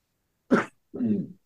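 A single sneeze: a sharp, breathy burst followed by a longer, lower voiced tail, heard alone with no talk around it.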